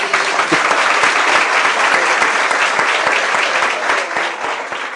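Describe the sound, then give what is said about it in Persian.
Audience applause in honour of the hosts: dense, steady clapping that fills the whole stretch at an even, loud level. “به افتخار مرزبانی دست بذارید.”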